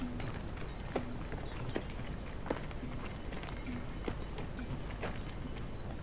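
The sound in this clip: Hooves of caravan animals setting off in the desert make a soft, steady clip-clop of walking footfalls over a constant low hiss.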